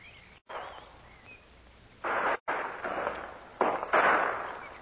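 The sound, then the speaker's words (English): Gunshots ring out in a hillside gunfight, a few loud, noisy cracks with short echoing tails spaced irregularly over a faint background. “it's only one man. You can tell by the shots.”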